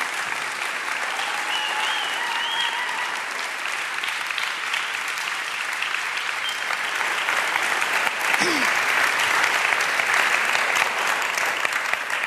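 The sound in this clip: Audience applause greets a speaker stepping onto the platform at a morning gathering: dense, even clapping from many hands runs steadily for about twelve seconds, swelling slightly toward the end.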